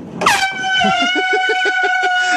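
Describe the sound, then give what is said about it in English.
Air horns blasting in a hallway: a loud, piercing sustained tone kicks in just after the start and holds steadily to the end. “So we have two air horns ready to go, and the video can take it away from there.”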